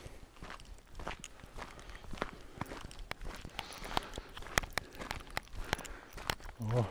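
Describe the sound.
Footsteps of a person walking along a forest edge: soft, regular steps repeat at a steady walking pace, fairly quiet throughout.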